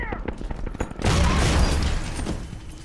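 Gunfire from a movie scene of people being shot bursts out after a second of scattered clicks and clatter, becoming a loud, dense, continuous barrage that holds to the end.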